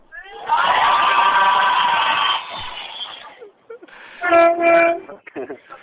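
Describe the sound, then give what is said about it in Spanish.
Two short, loud, brassy honks from a bus horn, coming after a sustained stretch of group shouting. “Hasta el señor del autobús ha pitado con el claxon.”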